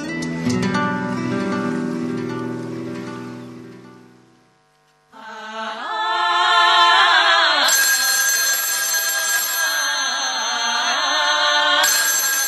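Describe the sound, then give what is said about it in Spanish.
An electronic telephone rings on a radio program: after a low tonal passage and a brief drop, a bright, sustained synthetic ringing with repeating stepped tones plays loudly and alone. “Alguien llama, alguien está en el teléfono.”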